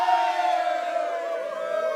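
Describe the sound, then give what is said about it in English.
An audience squealing with delight, as a loud, sustained, high-pitched chorus of cheering voices held steady throughout. “Yes, you can squeal with delight. That's what I've been doing every time I say, I wrote a book.”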